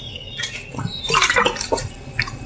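A sip of water being drunk: a few soft, wet slurping and swallowing sounds in quick succession, faint and close, with no talking.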